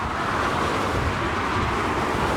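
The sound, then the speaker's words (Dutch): Cars speeding past below on a notorious provincial road, heard as a continuous, loud, broad roar of traffic with no distinct single passes and no voices. “Allemaal auto's razen onder ons voorbij.”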